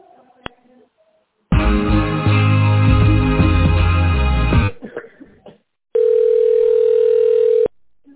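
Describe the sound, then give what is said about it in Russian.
A steady, unbroken telephone line tone hums for a couple of seconds while a call is being transferred. Before it comes a longer, louder stretch of dense, buzzy tonal line sound, separated from the tone by a short quiet gap. “Сейчас переведу, если сможет, трубочку возьмет.”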